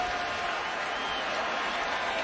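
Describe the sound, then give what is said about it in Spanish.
A baseball crowd cheers on its batter, a steady broad wash of voices and applause that keeps an even level throughout. “El público aquí animando a su bateador.”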